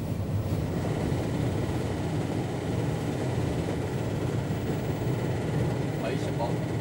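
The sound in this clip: Steady low rumble of a BLS locomotive pushing a train along Lake Thun near Spiez, running evenly without hard pulling.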